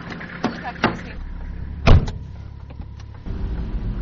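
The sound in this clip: A car drives down into a valley in a Central Australian park with a local ranger. A steady low rumble runs throughout, marked by a few sharp clunks and a brief whir, and grows slightly louder near the end.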